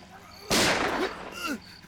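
Gunshot blast that hits abruptly and loudly, then leaves a rough, decaying roar lasting roughly a second before fading back to near quiet.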